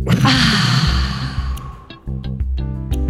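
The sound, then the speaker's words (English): A deep breath let out as a long, loud breathy sigh, airy and sustained for about a second and a half before easing off, with pitched tonal sounds following. “let's end with letting out the deep breath. Ready? Inhale. Let it out.”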